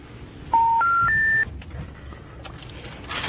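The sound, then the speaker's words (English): Telephone keypad tones as a number is dialed: three clean beeps in quick succession, each stepping higher in pitch, followed by faint clicks and low background noise. No speech. “So are you just dialing like the top number in the corner of every page?”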